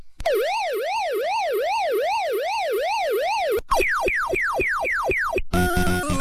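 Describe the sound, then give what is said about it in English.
Electronic sounds from the 1980 Pac-Man arcade video game: a steady warbling siren that swoops up and down repeatedly, then a run of quick falling bleeps, ending in a burst of buzzy electronic noise. “the world heard those lovely sounds on this day for the first time in 1980 with the release of Pac-Man”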